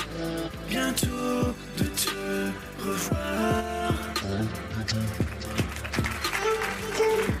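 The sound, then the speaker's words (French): Theme music for a French interview show recorded live in public, with a steady rhythmic pulse under layered tonal parts. It plays alone at an even level throughout. “Ton actu la plus fraîche, c'est le podcast À bientôt de te revoir, mhm. dont voici le superbe générique.”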